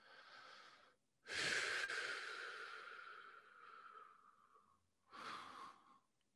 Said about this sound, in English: Just keep holding the breath inside. A few more seconds. And just exhale slowly.